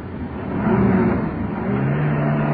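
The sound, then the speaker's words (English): A car drives and turns a corner, its engine giving a steady, fairly loud drone with a low hum that rises slightly toward the end. “I've been driving for ever so long. All right. We're turning the corner now. Indicator out.”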